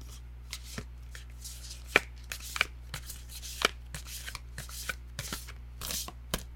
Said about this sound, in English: Oh, well, a card just fell out. I feel like that's our card, don't you?